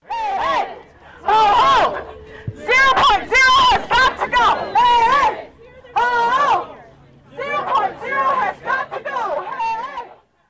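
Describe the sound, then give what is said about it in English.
More than 100 teachers rally outside the Doyle Administration Building, demanding better pay and resources. Loud crowd voices come in repeated strong bursts separated by short pauses, with babble between them. “That was the sound of more than 100 teachers gathered outside the Doyle Administration Building yesterday evening.”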